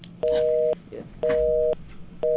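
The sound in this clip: A telephone's tone plays after a call is ended: three evenly spaced half-second beeps of a steady mid-pitched tone with short gaps between them, the last still sounding at the end.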